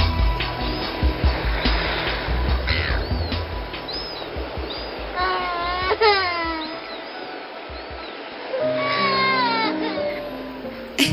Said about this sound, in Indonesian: Ada suara. Suara apa ya? Ada yang nangis.